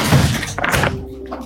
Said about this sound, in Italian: Chiudo la porta, finestra.